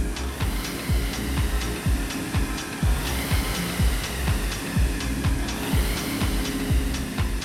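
Flywheel of a RowErg rowing machine whirring during a workout, with many regular surges as each stroke drives the wheel over a continuous rushing hum.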